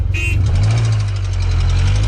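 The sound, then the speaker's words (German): A car engine runs with a steady, loud low rumble that holds unchanged throughout, and a short high tone sounds at the very start. “Hauptsache der Motor, der ist schon gestartet.”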